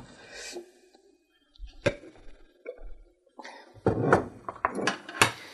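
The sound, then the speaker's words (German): Kitchen clatter as food is set into a pan beside beans at the edge, with a few soft knocks and clinks of utensils against cookware and faint rustling between them, all fairly quiet. “Ich lege die jetzt neben den Bohnen, auch am Rand.”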